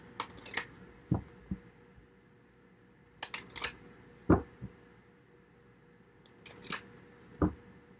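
Playing cards being drawn and handled make a scattering of brief, crisp clicks and snaps. They come in small clusters with quiet gaps between them.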